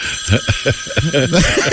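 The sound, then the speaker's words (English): Bell ringing in a fast, steady trill of repeated strikes, loud and continuous, with voices sounding underneath. “Saved by the Bell.”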